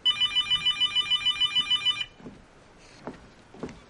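A mobile phone rings with a rapid, even run of bright electronic pulses, loud and regular, then cuts off abruptly, leaving only faint soft sounds.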